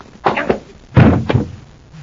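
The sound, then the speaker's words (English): Left hook punch sound effect from a radio drama fight scene: two heavy, dull thumping impacts about three quarters of a second apart, the second fuller and louder, with no talking over them. “What a neat left hook.”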